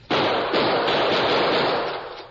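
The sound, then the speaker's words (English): Gunshots are fired at a steel staple holding a chain. The shots come as a loud, sustained burst of rapid, harsh blasts that start abruptly and fade slightly toward the end, with no talk over them. “I'm going to try some bullets on that staple. Move back as far as you can.”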